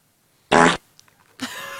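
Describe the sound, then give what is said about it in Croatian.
A fart: one short, loud, rasping burst, a brief lull with faint sounds, then a second longer, rougher blast that runs to the end. “Jel smijem prdnuti ispred tebe?”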